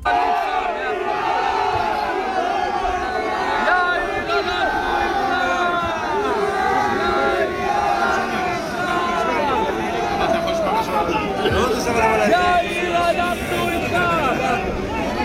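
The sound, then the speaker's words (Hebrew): Protesters shout during a night riot in Modiin, a roaring mass of voices chanting and yelling together. The loud, sustained crowd noise swells and recedes with overlapping cries. “יאיר, אנחנו איתך, צועקים לו המפגינים.”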